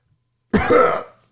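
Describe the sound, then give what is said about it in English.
A single gruff throat clearing, loud and abrupt, lasting about half a second before trailing off into silence. “No, I had something in my throat.”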